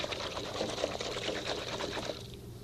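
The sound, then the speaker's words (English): Water and detergent are poured in to wash glasses, making a continuous splashing, bubbling pour that runs steadily and eases slightly at the end. “In with the water, in with the detergent. Not too much. Make just enough suds”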